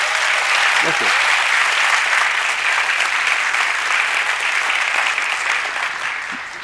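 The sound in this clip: Audience applause after a recited décima poem, a sustained, even roar of many hands that holds steady and eases off slightly at the end, with a brief voice surfacing early on.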